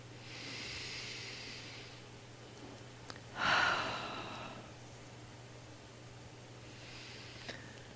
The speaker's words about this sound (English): by taking a good, deep, cleansing, energizing breath together. And again.